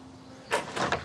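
A house's front door opening, heard as a few brief, faint clicks and rattles close together against a quiet, steady background.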